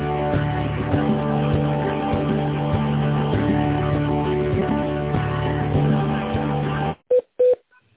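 Telephone keypad tones as a caller presses a number in an automated phone menu to reach the accounting department. Two short tone beeps sound near the end, after a long, continuous narrow-band line sound.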